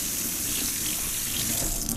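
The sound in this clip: Water runs steadily from a kitchen tap while something is rinsed at the sink, a continuous, even rushing hiss that stays fairly loud throughout.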